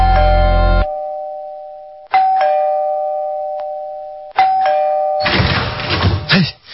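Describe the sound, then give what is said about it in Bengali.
An electronic doorbell is rung three times at a door, each press giving a clear tonal chime that hangs and slowly fades before the next press. A short burst of noisy clatter follows the last ring. “হঠাৎ দরজায় ঘন ঘন bell”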